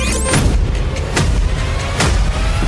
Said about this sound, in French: Et pourquoi pas un feu d'artifice avec Pyrostar.